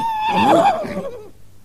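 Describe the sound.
A young stallion gives one loud, shrill whinny that wavers and trails off lower over about a second, with no voices.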